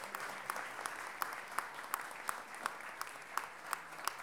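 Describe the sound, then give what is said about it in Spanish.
Audience applause at a music launch event: a soft crowd wash with many sharp claps in a steady, even rhythm, fairly faint overall. “Nata Ursúa, un aplauso grande”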